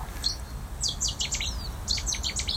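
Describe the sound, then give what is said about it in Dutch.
A Cetti's warbler sings beside a polder ditch on a mild late-summer morning. It gives high, rapid, emphatic notes in two short bursts after a single brief note, over a steady low rumble. “Aad Jonkvorst hoorde op een zachte nazomerochtend langs de poldervaart bij Schiedam de Setties-zanger.”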